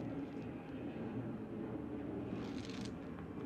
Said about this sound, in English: And there's more airplanes.